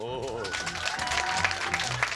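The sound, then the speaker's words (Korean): A professor claps in a lecture hall, joining quick, fairly quiet applause, while voices are heard over the clapping, especially at the start. “욕선이에게 감탄한 교수님도 박수를 치셨습니다.”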